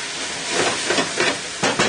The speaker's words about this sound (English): The next step here is to add the capers. And I put about 2.5 ounces in. I'm going to saute those for just about, not even maybe 30 seconds, a minute,